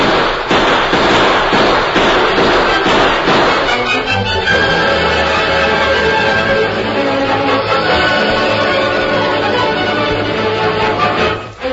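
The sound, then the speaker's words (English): Gunshots in a radio-drama gunfight in a freight wagon: dense, rapid cracking bursts for about four seconds, then a steadier sustained sound to the end. “look, down there on the trail. A gunfight in that freight wagon.”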